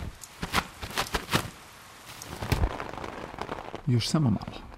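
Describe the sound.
Heavy rain pours down in a steady hiss broken by sharper spattering bursts, with a voice heard briefly near the end.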